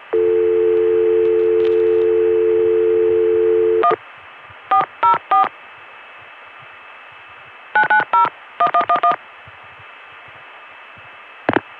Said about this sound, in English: But we can dial a non-completed long distance call. Let's dial a vacant code that'll get us a recording from the long distance tandem that serves this Richmond number 1 ESS office.